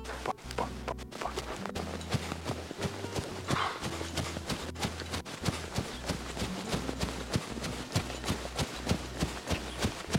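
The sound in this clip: A horse trots past the judges' marker in a riding competition, its hooves striking the ground in a steady, even clip-clop rhythm of many beats that carries on alone throughout.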